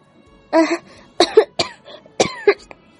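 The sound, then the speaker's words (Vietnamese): A woman lying in bed coughs violently and dryly, a rapid series of harsh, rasping coughs in uneven bursts with short pauses between them. “Trình Mộ Diên nằm ở trên giường kịch liệt ho khan”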